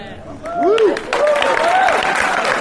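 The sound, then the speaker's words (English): Audience applause at a senator's public meeting after an answer on school lunches, a dense steady wash of clapping with voices calling out over it. “biggest applause of the day for answering a question on the Obama administration's efforts to reduce calories and mandate healthier foods in school lunches.”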